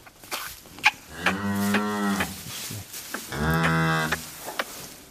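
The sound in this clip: A newborn calf, alive and healthy, moos twice on a farm. Each moo is a long, loud, drawn-out call, with short knocks and rustles in between.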